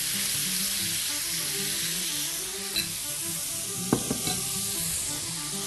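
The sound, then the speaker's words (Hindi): Sizzling as gravy sauce is poured bit by bit over a piece of fish frying in the pan, a steady, even hiss broken by a few faint pops. “अब हम बारी है इस gravy को थोड़ा थोड़ा करके इसी पीस के ऊपर डालने की ताकि इसका जो अरोमा है वो अच्छी तरीके से फिश के अंदर जब्ज हो जाए।”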